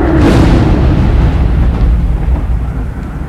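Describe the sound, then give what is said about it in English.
A dragon's green energy beam blasts a wall and rocks tumble down, heard as a loud, deep roaring rumble that bursts at once and then slowly fades. “You attempt to step across the gap and continue pressing forward, but as you do, the dragon blasts a green energy beam at the wall in front of you.”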